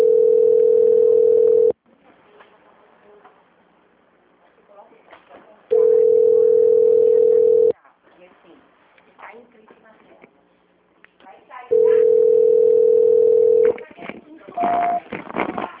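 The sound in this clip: Telephone call-transfer tones over a speakerphone: three long, steady, mid-pitched beeps of about two seconds each, separated by quieter stretches of faint background noise.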